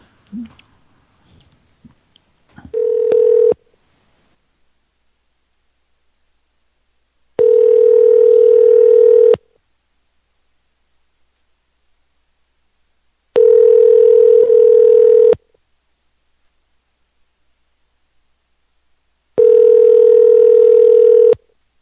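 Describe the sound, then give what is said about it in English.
Telephone tone while calling a number: after a few faint clicks, a short steady tone is followed by three loud, evenly spaced two-second tone bursts, each flat and unchanging in pitch, with silence between them and no voices. “let's call another number.”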